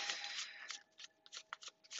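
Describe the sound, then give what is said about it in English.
Tarot cards are shuffled in a run of quiet, papery riffles and flicks that come in short, irregular bursts. “I cannot guarantee you'll hear me shuffling the whole duration of this reading, but based off of faith, we will go from here.”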